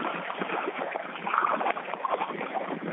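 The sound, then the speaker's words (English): Paddle strokes and water washing as someone paddles a loaded boat back out a short way, a soft continuous sloshing with a few slightly stronger splashes. “And here, I've got to paddle back out just a little ways.”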